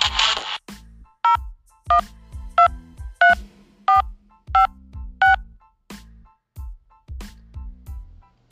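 Telephone keypad tones from a number being dialed: seven evenly spaced dual-tone beeps, clear and loud, following a short noisy burst and set against regular low thumps that continue throughout.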